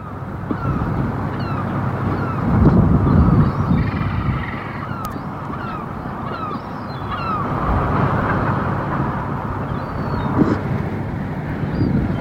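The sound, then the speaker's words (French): A strong southwesterly storm wind blows over the Kerguelen Islands as a dense, steady roar with slow surges in strength throughout, and no voices are heard. “une très forte tempête, ce que je pourrais appeler la fameuse tempête de Suroît, dans le genre de celle que nous subissons en ce moment”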